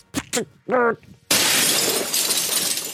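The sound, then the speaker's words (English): Glass smashes loudly after a few brief words, a sharp crash that breaks into a sustained hissing scatter of shards for well over a second. “Easy with the glass, don't cut yourself. I keep smashing things because I'm fucking shit up tonight.”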